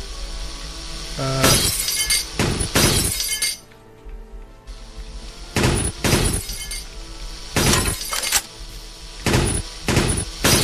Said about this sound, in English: I think that was the machine gun reloading or something.